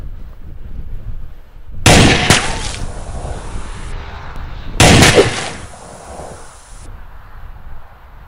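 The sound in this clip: A semi-automatic pistol fires two loud shots about three seconds apart, each a sharp crack followed by a long, rumbling decay.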